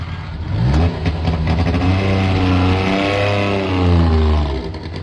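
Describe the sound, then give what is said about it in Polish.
A Syrena 105 car engine revs loudly in a sustained run of deep, buzzing harmonic tones. The pitch wavers slightly, and the sound eases off at the very end. “w 1972 roku fabryka samochodów osobowych rozpoczęła produkcję modelu Syrena 105. Było to 46 lat temu, a dźwięk jak dzwon.”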